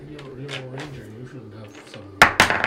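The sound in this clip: Dice clatter onto a table during a tabletop fantasy role-playing game, a short burst of hard, rattling hits that comes right after people talk.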